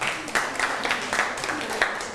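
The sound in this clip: Group applause in a class session where small groups present on the merit of offering food to monks, with moderate claps landing in a loose, fairly regular rhythm across the short clip.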